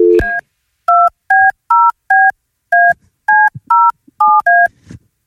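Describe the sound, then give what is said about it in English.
Telephone keypad dialing a number: a quick, evenly spaced series of many short, loud two-tone beeps, heard alone with silence between each press. “Dial it.”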